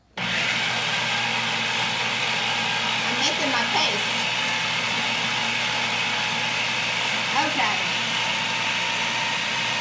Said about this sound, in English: All right, so I'm going to blend this together.